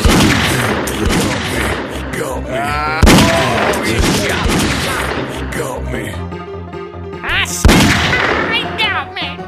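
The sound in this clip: Gunfire from an enemy in a video game: a few sharp, loud bursts, with a man talking excitedly over and between the shots.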